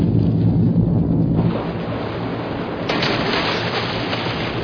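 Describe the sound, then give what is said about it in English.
A torpedo launched from a submarine gives a continuous loud rushing roar of churning water over a deep rumble. The texture shifts partway through, and no voices are heard. “Torpedo in the water. Stand by. Torpedo is active.”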